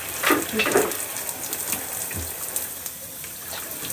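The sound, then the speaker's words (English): Water splashing as skincare bottles are rinsed in a bathroom sink, with a few louder splashes early on that settle into a quieter trickle. “I need to make sure to rinse off everything that I just use in my bathroom.”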